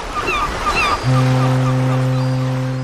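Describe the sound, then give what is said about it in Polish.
A ship's foghorn sounds as the vessel enters port: one deep, sustained blast begins partway through and holds steady to the end, over a constant wash of sea and surf. “ten dźwięk statku wpływającego do portu to jest coś, co nieodłącznie kojarzy się z morzem.”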